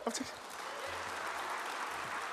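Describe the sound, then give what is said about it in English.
Audience clapping at an author's book reading: faint, even applause that carries on steadily after a brief voice at the start. “People, you mention the title of a book and people clap.”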